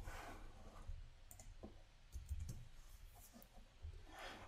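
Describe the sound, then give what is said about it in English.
Computer mouse clicks on a Login button while signing in to a database server with an administrator name and password: a few soft, irregularly spaced clicks over low background noise. “And then I gotta give it the password and then click Login.”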